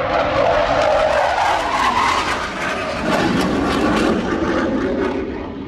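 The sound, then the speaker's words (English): Military display jets fly over a city with a loud, heavy roar and a harsh hissing edge. The noise holds steady throughout and eases slightly near the end. “There's blue angels literally flying around the city right now.”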